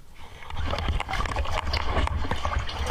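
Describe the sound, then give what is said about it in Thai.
Water sloshing and splashing through a flooded cave passage: a steady, loud churn with a heavy low rumble and many irregular knocks and splashes running the whole way through. “ในถ้ำมันมีบางช่วงที่บอกว่า340เมตรเนี่ยบางจุดมันมีน้ำท่วมด้วยนะครับบรรยากาศจุดที่มันมีน้ำท่วมเนี่ยเป็นยังไงลองไปดูกันฮะ”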